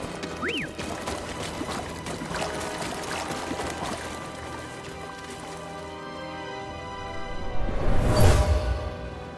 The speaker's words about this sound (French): Ce tunnel s'est soudain rempli d'eau. Qu'est-ce qui a pu causer ça